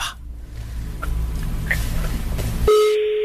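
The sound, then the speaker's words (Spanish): A telephone number is dialed at a company line: a few faint, short keypad beeps sound over a low hum, then a steady, clear line tone holds until the end. “Que estoy marcando el número que traigo de cosas del Metrobús de la empresa.”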